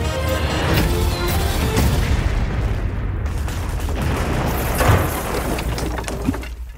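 An explosion as a battleship is sunk brings a loud, sustained roaring rumble broken by sharper bursts and crashes, easing off slightly toward the end.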